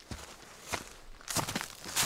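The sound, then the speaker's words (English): Footsteps of two people walking in along a trail toward a lake: a few soft, evenly spaced footfalls at an unhurried pace, fairly faint, with no talking. “just walking in along the trail to Holmes Lake with my dad”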